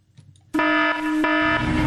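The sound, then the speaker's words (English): A livestock barn alarm sounds with a loud, steady, buzzing horn-like tone rich in harmonics. It starts abruptly after a few faint blips and holds without a break, and a rising hiss builds beneath it toward the end. “Protect your livestock with AP and Agri Alert Alarms.”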